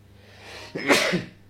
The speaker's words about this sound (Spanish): Perdón, estornudé.